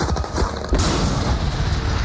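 Bombs explode in a film soundtrack as a dense, roaring wall of booming blasts. A sharp surge about a third of the way in makes the rumble even louder, and it continues without a break to the end.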